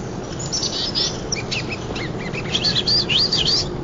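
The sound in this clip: A songbird calls in the distance, very vocal but not singing its full spring song. High chirps and warbling phrases sound over a steady low background hiss and grow busier toward the end, with no talk.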